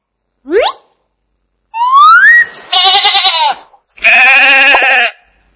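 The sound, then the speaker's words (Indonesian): Sheep bleating in a few wavering, nasal calls. The first is a brief rising cry, and the later ones are long, loud and strongly harmonic, with no other sounds. “Ini adalah domba. Domba.”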